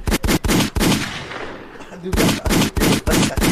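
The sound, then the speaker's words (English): A gunshot sound effect plays as rapid, loud bursts of shots in quick succession. A short quiet pause splits the firing into two volleys. “Hit the gunshot!”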